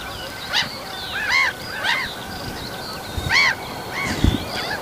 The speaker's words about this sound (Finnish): Naurulokit on siinä mikkien päällä. Siitä lentää yli.